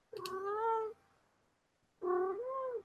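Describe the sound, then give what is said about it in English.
Two drawn-out, harmonic meows from a cat, loud and alone, separated by a second of silence; the second cry wavers in pitch. “Hey, he's purring now. There's a cat.”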